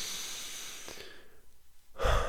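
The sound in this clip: A deep breath drawn in and let out, soft and airy at first, then swelling into a stronger, louder rush near the end, heard on its own without talking.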